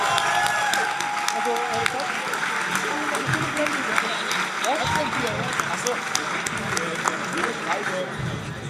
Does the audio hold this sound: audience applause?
yes